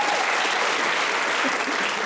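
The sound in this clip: Audience applause at a talk: thick, continuous clapping that stays loud and level throughout, a busy wash of many hands with no break and no distinct voices emerging.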